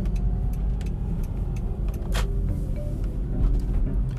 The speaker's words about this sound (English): Forgive the background noise. I am driving, but I'm driving safely.